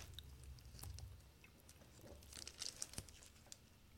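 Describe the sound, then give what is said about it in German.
Chewing on a Malbuner meat snack: faint, irregular moist crunches and crinkly clicks, quiet throughout with a few sharper bites near the end and no talking. “Ich bin Malbuner Fan, wirklich. Ich probiere mal das Malbuner.”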